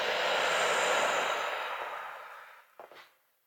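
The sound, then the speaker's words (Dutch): A deep breath exhaled during a guided breathing exercise: one long, steady, breathy rush of air that slowly fades out over about three seconds, ending in a brief soft puff. “Adem uit, release bij die uitademhaling.”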